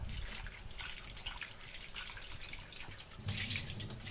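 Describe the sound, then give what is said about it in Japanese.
Running tap water splashing over cherry tomatoes with their stems removed as they are washed, a continuous bright hiss with a fuller gush near the end. “ミニトマトはヘタを取ってから洗います。ヘタの周り結構汚れがついているので、ヘタを取ってからお水で洗います。”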